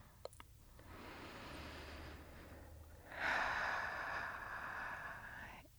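Deep breathing during a guided relaxation exercise: slow breaths drawn in through the nose and let out through the mouth. Two long, soft, breathy rushes, the second louder and fuller, with a couple of small clicks at the start.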